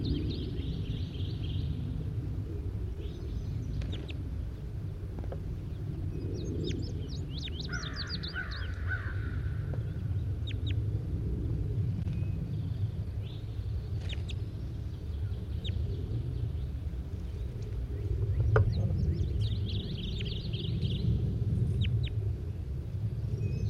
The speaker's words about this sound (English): Very weakly given calls by bird 81.